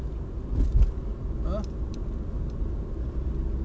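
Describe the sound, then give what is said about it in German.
A car drives over a bridge across the Main river, giving a steady, low road rumble and engine drone that holds at an even level throughout. “Fahr gerade über den Main.”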